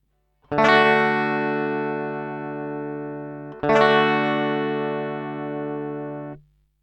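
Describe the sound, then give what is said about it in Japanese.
Guitar strumming an open low-position D chord, struck twice about three seconds apart, each strum ringing out brightly and fading slightly before being cut off. “まず1つ目、ローコードの D を押さえてください。”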